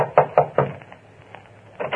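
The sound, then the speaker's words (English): A fist pounds on the door of a copy room. Three heavy thumps come in quick succession, followed by several softer, irregular knocks, then two more firm blows. “And you pray there's still someone in the copy room as you pound on the door.”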